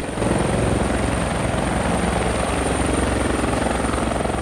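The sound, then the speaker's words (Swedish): Helicopters landing make a loud, steady rotor and engine roar that holds without a break for the whole stretch, with no voices heard. “Nej, det är skyggen av helikoptrar som landar i en stor sky.”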